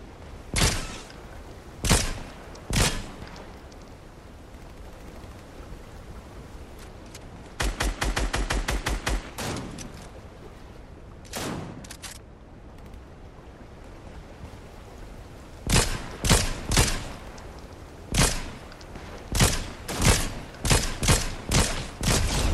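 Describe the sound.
Fortnite gunfire with sharp, loud shots. Single shots and short volleys are scattered among quiet gaps, with a fast burst midway and a dense run of repeated shots toward the end.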